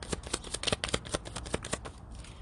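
A deck of reading cards is shuffled during a love-themed card reading. Crisp, rapid riffles and flutters come in many quick bursts, fairly faint, with no talking.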